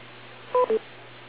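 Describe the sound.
Two short electronic telephone beeps come in quick succession, the second slightly lower, over a faint steady hum on a phone line.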